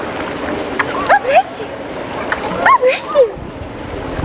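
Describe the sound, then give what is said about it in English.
Water splashes during a first swim, brief sloshing bursts rising and falling beneath people talking and calling out. “Okay. It's your first swim, buddy.”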